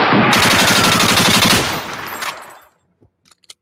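Machine gun firing sound effect, a loud, continuous burst of fast, evenly spaced shots that fades out after about two and a half seconds, followed by a few faint clicks.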